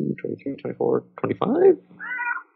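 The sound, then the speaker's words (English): A cat meows after a person's brief talking. It gives a couple of drawn-out meows, the first arching up and then down in pitch, the second higher and thinner. “Punctuated by cat.”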